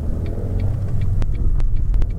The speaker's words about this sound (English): So what you're hearing is my drive home from work.